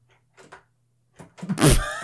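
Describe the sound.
Clunking rattle of a glued door that closes but springs back and shifts in its lock: a couple of faint clicks, a short pause, then a louder clattering burst with a tonal creak that trails off at the end.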